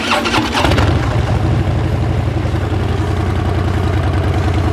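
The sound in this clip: A motorcycle engine fitted with a Vance and Hines exhaust starts with a loud crackling burst, then settles into a steady, deep, throbbing idle that stays loud and unbroken to the end.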